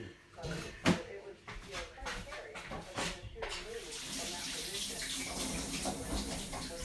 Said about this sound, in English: Sorry, I have to wash my hands because a bit of egg went on it before I could even do the next one.